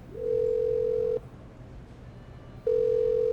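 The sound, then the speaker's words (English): A telephone line tone sounds as someone dials another room: a steady, loud, mid-pitched tone lasting about a second, a stretch of quiet hiss, then the same tone returning. “Elvis leaned over and got hold of his telephone and dialed Jack's room.”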